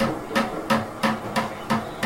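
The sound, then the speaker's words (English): A man hammers on an old metal oil-paint can being prepared for recycling in a recycling district, striking six steady, evenly spaced, moderately loud blows with no talking. “a man is hammering at a paint can”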